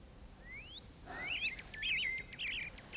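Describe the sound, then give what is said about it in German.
Birdsong: a couple of thin rising whistles, then a run of quick, warbling high chirps, fairly faint over a soft hiss, with no talk. “Hörst du? Die Vögel singen.”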